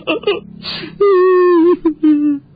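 A person crying, with breathy sobbing gasps followed by two long, drawn-out wailing moans at a steady pitch, loud and without words.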